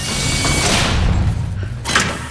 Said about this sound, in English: The gate closes.